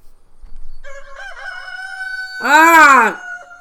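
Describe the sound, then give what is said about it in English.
A rooster crows in the morning: a single loud, strongly harmonic crow that arches up and back down in pitch, standing out above a steady, lower-level tonal background. “Sweet songbird, you idiot bird. I am up.”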